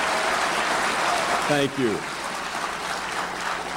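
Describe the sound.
Applause from the audience at the 2007 National Conference for Media Reform welcoming Bill Moyers: a steady wash of clapping that runs throughout, with a brief voice rising over it near the middle.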